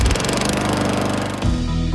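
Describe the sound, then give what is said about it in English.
A Gravely lawn mower engine runs loud and steady with a buzzing harmonic drone, its tone shifting briefly near the end. “When you see a Gravely, you're seeing greatness at work. Take your lawn mowing up a notch with a Gravely.”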